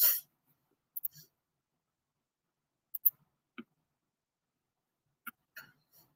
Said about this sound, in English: So I'm going to click on Screencastify extension, record.